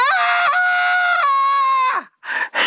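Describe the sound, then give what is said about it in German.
High, sustained scream of the kind typical on a roller coaster ride, held steady with a sudden dip in pitch, then trailing downward and breaking into two short, breathy bursts. “Wir machen das dieses Mal mit einem typischen Geräusch beim Achterbahnfahren.”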